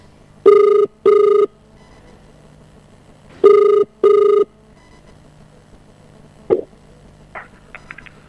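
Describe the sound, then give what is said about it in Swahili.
Ringback tone of an outgoing telephone call: two double rings of a steady pitched tone, separated by a pause, followed by a faint click and a few short, higher beeps near the end. “Hatimaye. Hatimaye simu inaita. Angalia simu yake hapo.”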